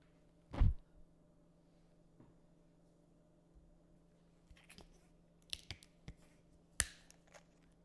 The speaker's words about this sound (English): Just lighting a candle.